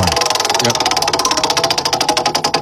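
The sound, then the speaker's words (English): Rapid, steady ticking of a prize wheel being spun, its pointer clicking against the pegs in a fast, even stream of many sharp clicks that carries through the whole spin. “All right, I'm going to give the wheel a spin one more time.”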